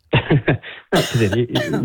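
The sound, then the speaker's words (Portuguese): A woman coughs repeatedly: a quick run of short, harsh coughs, then two longer, raspier hacking bursts. The coughs are loud and come alone, without speech. “uma mulher com uma tosse destas”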